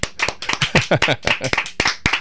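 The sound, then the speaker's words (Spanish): A small group of guests claps at a live second-anniversary event. The hand claps are sharp and uneven, with voices mixed in. “le pido a nuestros invitados, que ya van a saber quiénes son, un aplauso para Librería Sónica.”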